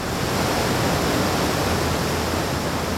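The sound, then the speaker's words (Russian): A roaring waterfall, its vast volume of water plunging about 2000 feet into a giant stone basin, produces a loud, dense, unbroken rush that stays constant from start to finish with no voices. “Вода, миллиарды галлонов воды каждую минуту переливались через край и с высоты 2000 футов падали в гигантскую каменную чашу у подножия водопада.”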